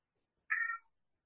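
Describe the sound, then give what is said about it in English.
A cat gives a single meow, a short mid-pitched call under half a second long, quiet and alone against silence. “If you heard our cat meowing in the background.”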